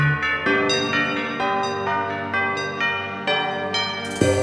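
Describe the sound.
Church bells ringing in a steady run of many struck, resonant tones, each strike ringing on with bright overtones into the next, at varying pitches and fairly loud throughout.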